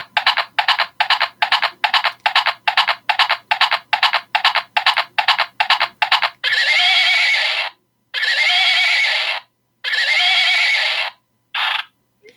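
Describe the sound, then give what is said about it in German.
A pink hobby-horse unicorn toy, a stick with a unicorn head, plays electronic sounds when its ear is pressed. First comes a quick, regular run of clopping hoofbeats, then a few long, loud whinnies and a short final one. “Und zwar ist es ein Steckeneinhorn in rosa. Es besteht in erster Linie aus so einem Stock und so einem Einhornkopf. Und es hat eine ganz tolle Funktion. Wenn man das Ohr drückt, dann macht es Geräusche.”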